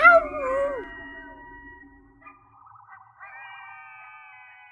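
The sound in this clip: Coyotes howl with a loud, wavering howl at the start that slides down in pitch, followed by quieter quavering, warbling calls that hold at a high pitch.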